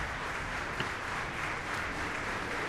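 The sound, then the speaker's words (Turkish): Applause from a concert audience after a symphony orchestra finishes an overture: a dense, even wash of many hands clapping, steady and fairly soft throughout, with no distinct single claps or voices standing out. “Bugünkü programın son eseriydi. Uzun alkışlar eşliğinde siz de duydunuz.”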